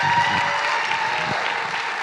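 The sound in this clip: Applause from a church audience welcoming an elder up to speak, a dense, steady clatter of many clapping hands that holds at an even loudness throughout.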